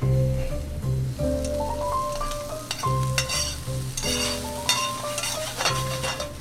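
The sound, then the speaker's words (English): Spätzle sizzle and brown in butter in a pan, giving a steady crackling hiss with occasional stirring sounds and background music playing along. “And we're going to add our spätzle. We don't want to stir it too much here at the beginning. You actually want the spätzle to brown, because everything's better with brown butter.”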